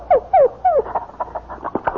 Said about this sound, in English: Say, you've got a dog and a beauty.